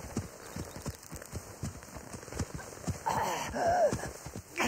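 A horse galloping away, heading east into Indian Territory: many rapid, rhythmic hoofbeats in a steady driving clip-clop that continues throughout.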